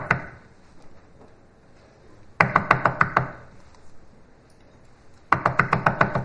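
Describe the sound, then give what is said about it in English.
Knuckles rap persistently on a hard surface in two bursts of quick, evenly spaced knocks, each run of several sharp, loud raps separated by a quieter stretch. “okay, I hurt my knuckles now, so I'm done. You get the point. You get the point. It's a persistent knocking.”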